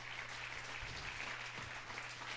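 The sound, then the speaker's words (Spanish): Faint, steady applause from a church audience honoring Christ Jesus during a Spanish-language service: a dense wash of clapping holding at an even level throughout, with a low hum beneath. “Dele un aplauso a Cristo Jesús.”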